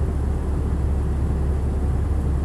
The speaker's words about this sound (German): Eine kleine Maschine fliegt in mondmenschiger Dunkelheit